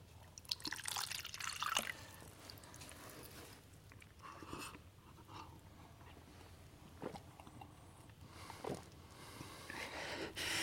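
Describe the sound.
Someone drinking water: wet, irregular liquid sounds with drips and small splashes at a moderate level, rising and falling in short bursts with no talk.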